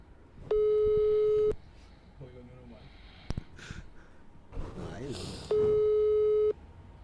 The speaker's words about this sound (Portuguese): Só chama, só chama. Só chama.